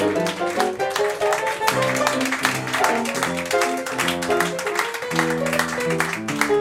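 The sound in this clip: Applause mixed with music at a tribute ceremony: a steady stream of clapping runs over a melodic instrumental tune with clear sustained notes.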